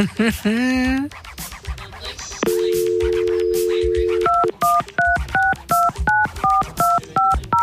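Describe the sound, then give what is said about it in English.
Telephone dialing tones from a phone call to a restaurant on New Year's. A steady dial tone holds for about two seconds, then a quick run of clipped two-note keypad beeps follows in an even rhythm. “Okay. Is it dialing?”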